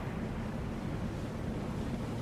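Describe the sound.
Rushing water and surging waves churn as a huge sea creature lunges and crashes back into the sea, heard as a constant low, wind-like roar with no distinct splash and no voices.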